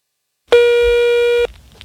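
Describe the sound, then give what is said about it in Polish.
A telephone ringback tone on a call to social services: one steady, clear tone lasting about a second, heard alone and followed by quiet. “W końcu zadzwoniłam do opieki społecznej.”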